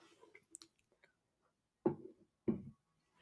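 Two crisp crunches of a Pringles potato chip being bitten in close ASMR eating, faint and separated by near-silence, with a few soft mouth clicks before them.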